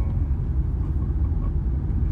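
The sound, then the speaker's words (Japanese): Deep, steady rumble of a car driving in the dark, a continuous low engine and road drone with no voices and little change in loudness. “暗闇の中で車は動いてて、なんか不思議な感覚ですね。”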